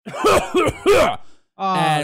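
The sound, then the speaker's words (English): A man's voice imitates another man coughing in a health food store aisle, giving three harsh, throaty coughing bursts, then a short sustained voiced sound. “And he keeps coughing and more people are staring at him.”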